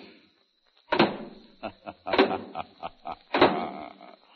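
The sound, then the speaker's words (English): Clanking of a soap-making machine created as a radio comedy sound effect: three heavy mechanical clunks at regular intervals, with lighter rapid clicks and knocks between them, like a stamping press at work. “Now, stop the machine, and we'll examine the product. The bars of soap are coming out.”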